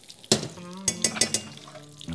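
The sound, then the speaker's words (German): Meatballs fry in a pan as hot pan fat is spooned back over them, a soft sizzle broken by several sharp metallic clinks of a utensil against the pan, spaced unevenly. “dieses leckere Pfannenfett so ein bisschen hoch jetzt und übergieße die noch mal.”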